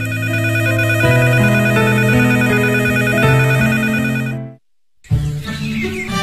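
A telephone rings with a bright electronic ringtone, a looping melodic pattern that plays steadily and loud for about four and a half seconds, stops for a moment, then starts again.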